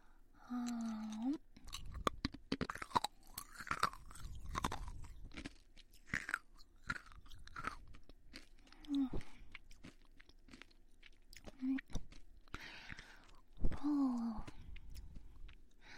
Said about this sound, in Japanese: 美味しいです。食べるのに夢中になっちゃってます。